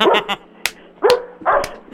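A neighbour's dog in Santa Monica barking: several loud, sharp barks and yips in an uneven rhythm, with brief quiet gaps between them.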